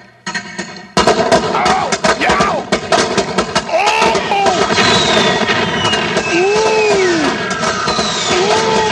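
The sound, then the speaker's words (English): A whole brick of firecrackers goes off in a dense, rapid crackle of sharp pops. After a short quieter lead-in it keeps up a loud, continuous burst, with shouting voices over it. “Right, so I'm going to light this whole brick of firecrackers that's shoved up my butt, and we're going to do this for the March of Dimes. Here goes.”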